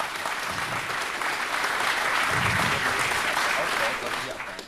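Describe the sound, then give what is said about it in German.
An audience applauds loudly with dense, steady clapping that holds for several seconds before easing off slightly at the end. “Ich verstehe dich gerade nicht. Die Leute applaudieren zu laut.”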